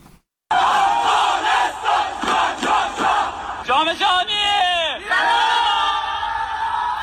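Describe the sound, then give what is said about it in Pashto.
A crowd cheers and shouts to welcome Afghanistan's national futsal team. After a brief quiet start, a loud, sustained roar of voices with whoops and rising calls carries on to the end. “نړیوال جام ته د افغانستان د فوټسال د ملي لوبډلې لارموندنه په بیلابیل ولایتونو کې د خلکو له تود هرکلی سره مخامخ شوې ده.”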